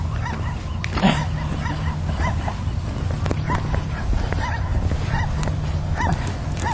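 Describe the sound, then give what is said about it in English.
A pet bird imitating a dog, giving many short, yipping barks and whimper-like calls in an irregular rhythm over steady background noise. “Completely sounds like a dog. Bird, you're barking! Quit it!”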